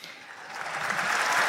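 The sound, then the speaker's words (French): A crowd applauding at a papal event, a brief burst of many hands clapping that swells steadily louder and denser from start to finish. “Applaudissements évidemment de la foule.”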